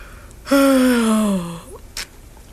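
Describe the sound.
A voice imitates a yawn: one long, breathy, voiced sound that slowly falls in pitch, followed a moment later by a brief soft breath.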